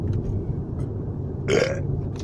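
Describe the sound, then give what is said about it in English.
One natural burp, short and fairly loud, rising out of a low, steady background rumble. “the burp was natural”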